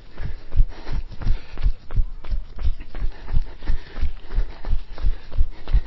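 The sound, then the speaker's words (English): Rhythmic footfalls of someone jogging through a forest, a steady run of many soft, low thuds at an even pace with no pauses. “So, that draws it to an end. I've enjoyed this jog around the forest and chat about football and leadership and all sorts of interesting”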